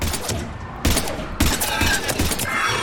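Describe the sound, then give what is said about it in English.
Video game gunfire against cannibal enemies rattles out in dense, sharp bursts of rapid shots, loud and overlapping, with no talking over it. “Okay, these guys take just a few too many bullets to kill, you know?”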